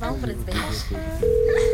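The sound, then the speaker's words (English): An outgoing phone call starts ringing as a steady, low, pure ringback tone that begins about two-thirds of the way in and holds, after a brief stretch of voice and mixed sounds. “This nigga better answer the phone.”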